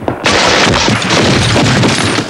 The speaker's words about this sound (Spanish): alguien dispara desde el otro lado.